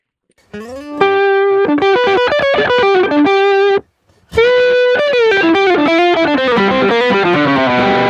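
A guitar with a K&K magnetic pickup rings through an amp, loud distorted single notes and sustained tones in a continuous phrase that breaks off briefly midway and then resumes at full volume.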